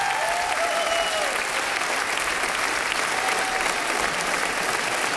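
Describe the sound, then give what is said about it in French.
A studio audience at Studio 104 of the Maison de la Radio et de la Musique gives a standing ovation after a concert. Thick, even applause holds at a constant level throughout. “Et le public ici, au studio 104 de la Maison de la Radio et de la Musique, s'est levé. Une ovation pour Stéphane Hichère.”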